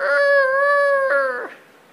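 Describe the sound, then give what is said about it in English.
A rooster crowing in the morning, heard in the distance: a single long, sustained call with a steady, bright, harmonic pitch that wavers slightly, then breaks and fades away at the end. “and then, there's your rooster for you.”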